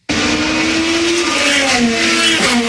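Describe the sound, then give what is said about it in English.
Indy race cars speed past during a street Grand Prix in the US capital, producing a loud, continuous engine roar whose whining tone drifts lower in a few step-like shifts. “And, of course, that's the sound of some Indy cars.”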